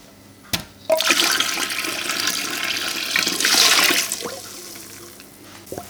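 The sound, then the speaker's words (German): Hot water rushes into an electric canning cooker that is set to 90 degrees and already half full. A steady, splashing pour swells and runs for about three seconds, then stops abruptly. “Und jetzt bin ich dabei, den Einkochautomaten zu befüllen. Den habe ich jetzt auf 90 Grad gedreht. Der ist schon halb voll mit Wasser. Und den muss ich jetzt noch auffüllen, dass wir auf 3/4 kommen.”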